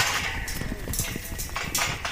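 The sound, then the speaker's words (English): Panicked horses trampling in a corral, their hooves thudding and clattering against the metal fence piping in a dense, irregular jumble of impacts at moderate loudness. “Then a mare tramples through a fence panel and her panic spreads.”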